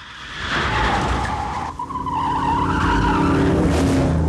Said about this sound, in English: As the car spins, more and more smoke comes from the tyres.